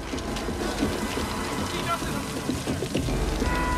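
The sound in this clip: Steady rain falls in a small town as men search the streets. A dense, even hiss of drops on surfaces runs throughout, with voices mixed in.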